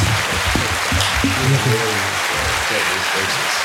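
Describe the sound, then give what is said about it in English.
An applause sound effect: steady, dense clapping runs through the whole clip, with voices talking over it. “I'll put the claps behind you so you can tell your goodbye.”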